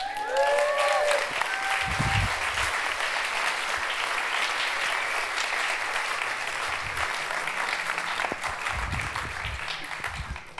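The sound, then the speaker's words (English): An audience claps steadily to welcome life group leaders onto a stage, a dense, even burst of applause that holds at a constant level for about ten seconds with no talk over it. “So if we asked you to come up, you guys could come up to the stage right now. If the rest of you could give them a hand.”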